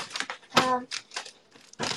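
Packing tape is pulled off the roll and pressed onto a cardboard box to seal it. Several rasping, crackling bursts come in quick succession, and one has a squealing, tonal screech as the tape unspools.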